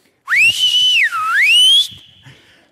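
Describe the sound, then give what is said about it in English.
A loud human whistle imitating a father calling his child home at sunset. One sustained tone rises sharply, holds, dips low and climbs back up, then ends in a thinner, fading tail. “And you know what that whistle was? That was my dad whistling for me to come home.”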